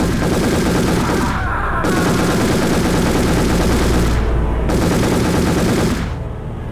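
Heavy gunfire at a small military post comes as a dense, loud, continuous rattle of rapid shots, like sustained machine-gun bursts, with only brief dips and no voices.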